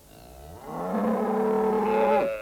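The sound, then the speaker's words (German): A cow on a farm gives a single long, low moo, swelling in over the first half-second and holding a drawn-out tone before breaking off abruptly. “Die Kühe und Schafe dösen vor sich hin.”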